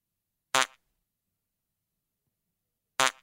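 Two short, sharp farts, each a brief loud buzzy burst lasting a fraction of a second, separated by about two and a half seconds of silence.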